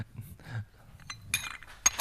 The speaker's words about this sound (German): Cool, klingt gut, ich trinke erstmal einen Schluck Tee.